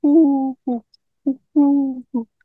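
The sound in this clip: Wood pigeon cooing: five soft, low, hollow notes in a rhythmic phrase that mixes long and short coos, with clear silence between them.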